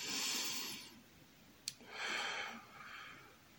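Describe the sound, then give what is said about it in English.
Slow, deep breathing during a guided relaxation: a soft, airy inhale, a pause with a brief click, then longer exhales. The breathing is faint and there is no talk. “we'll begin by taking a few deep breaths.”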